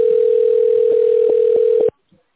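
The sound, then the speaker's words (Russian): A steady telephone line tone plays while a call is transferred to an administrator. It holds at one pitch for about two seconds, with a few faint clicks, then cuts off into near silence. “Или оставайтесь на линии для соединения с администратором. Вызов переводится на администратора.”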